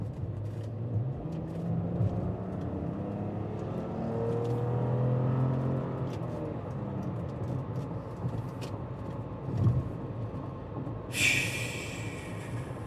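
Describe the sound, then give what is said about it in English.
A car engine accelerating quickly to pass an RV that is towing a small car. A faint drone with rising, shifting engine tones is followed by a couple of soft thumps and a sudden hiss near the end. “I had to pass the RV quickly because I was running out of lane.”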